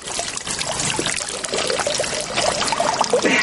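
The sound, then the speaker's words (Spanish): Three men urinating into a fountain: continuous splashing and trickling of streams into water, steady and fairly loud, with no talk. “Más tarde los tres orinan en una fuente.”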